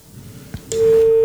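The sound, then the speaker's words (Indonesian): A telephone line signal sounds as a caller connects to a call-in line. After soft line noise and a couple of clicks, a loud, steady mid-pitched tone starts and holds to the end. “Ada telepon rupanya yang bergabung.”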